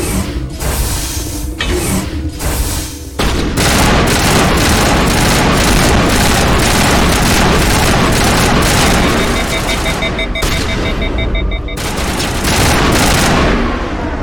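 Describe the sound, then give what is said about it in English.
Gunfire in the video game Mass Effect as a guard is shot: a few lighter shots, then a loud, dense burst of rapid, continuous automatic fire, with a steady beeping tone partway through. “And now we're shooting up the guard who we just agreed was doing a good job.”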